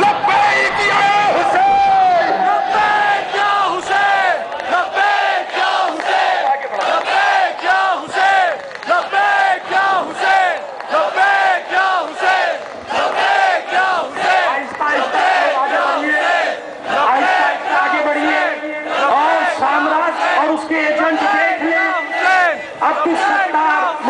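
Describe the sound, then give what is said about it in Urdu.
A crowd at a Pakistani rally chanting slogans together, many loud voices shouting in unison in a continuous rhythmic pattern of rising and falling phrases for more than twenty seconds. “سب مل کر ایک minute تک نعرہ لگائیں گے”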